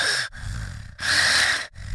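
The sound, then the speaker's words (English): A voice imitates loud mouth breathing, producing three heavy, rasping breaths separated by brief pauses. “And he is mouth breathing for Jesus.”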